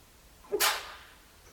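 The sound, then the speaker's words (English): One person sneezes during a quiet meditation session: a brief voiced intake and then a single short, sharp burst over faint background hush. “Sound of a body sneezing.”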